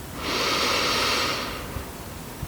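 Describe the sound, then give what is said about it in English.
A single slow, deep breath in during a guided meditation, a soft airy hiss that swells and then fades over about a second, followed by near silence. “Take a deep breath.”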